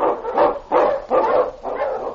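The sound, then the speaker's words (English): Huskies bark as sled dogs are driven on, loud overlapping barks and yelps rising in four quick surges with no pause between them. “Unchain! On, you huskies!”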